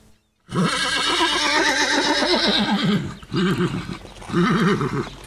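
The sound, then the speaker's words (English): A horse neighs loudly with long, quavering whinnies. One extended call is followed by two shorter bursts, and no voices are heard. “Number eight was a horse.”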